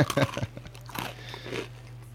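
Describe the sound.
Crisp crunches of biscotti being bitten, a few sharp snaps at the start, then softer chewing over a low, steady hum.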